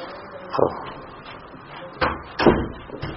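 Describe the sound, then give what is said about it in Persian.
A door is pushed shut with a few dull clunks and knocks, spaced apart and of moderate loudness, against a quiet background. “اونو درو ببند که صداش نیاد.”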